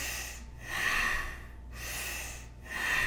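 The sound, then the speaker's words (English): Forceful nasal breathing in bellows style, done sitting upright as a breathing exercise: loud, rhythmic rushes of air in and out through the nose, about four steady breath strokes roughly a second apart, with no talking. “you're going to breathe through your nose, in and out through your nose, like a bellows, in through the lower, middle, upper chest.”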